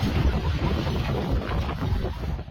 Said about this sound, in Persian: این صدای تندبادهای سره همراه با گرد و خاک در ولایت قندهار در جنوب است